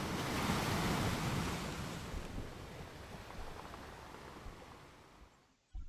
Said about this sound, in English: quite a lot of wind. I don't know how much wind,